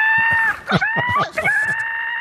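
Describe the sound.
A bird sound effect like a rooster crowing, played on cue: a shrill, strained cry with steady high harmonics and a broken middle section, with voice-like pulses beneath it.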